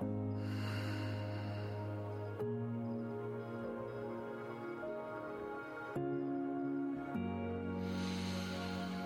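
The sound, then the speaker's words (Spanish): Slow, deep breathing: a soft airy inhale near the start and a long exhale at the end, both quiet over a steady, gentle musical drone. “Una vez más. Inhala. Y exhala.”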